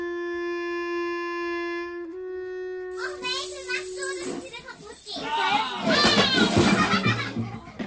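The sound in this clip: Children shouting and playing noisily: high, excited voices overlap in a loud, dense jumble that rises after a few seconds of a steady held tone.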